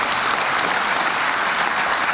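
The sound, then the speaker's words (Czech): A theatre audience applauds a Czech actor who has been nominated ten times for the Thalia award, a loud, dense, steady wash of clapping that holds at an even level throughout. “10krát byl nominovaný na Tálii, zatleskejte mu to.”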